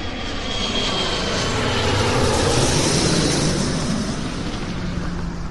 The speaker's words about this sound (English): When I hear the sound of the plane, it reminds me of my childhood